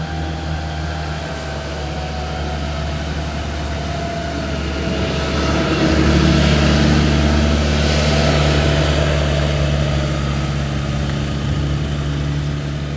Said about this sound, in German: So, ich habe jetzt gerade mal den fröhlichen Landwirt vorbeigelassen, der hier auf seinem landwirtschaftlichen Fahrzeug an mir vorbeigefahren ist und laut ist.